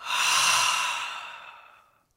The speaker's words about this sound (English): Again, inhale. Times 100.